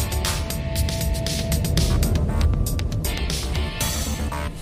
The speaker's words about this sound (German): Das Taxi brachte die beiden zum Rand des Waldes, während die Sonne hinter den Baumwipfeln verschwand und das Land in Zwielicht